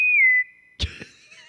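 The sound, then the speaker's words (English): A high, clear whistled note dips slightly in pitch and holds for under half a second, followed by a brief clatter and faint lingering tones. “That's very strange whistle there.”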